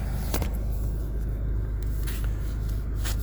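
A car driving down a highway produces a steady low rumble of engine and road noise. It holds an even level throughout, with faint higher hiss flickering above it.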